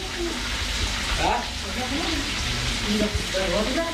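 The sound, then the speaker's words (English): Food sizzling and frying in a home kitchen in Peshawar: a continuous hiss with soft stirring and clatter, with faint voices of people talking in the background. “I'm at a relative's house. I'm spending the night here, and you can hear the food cooking here in the kitchen.”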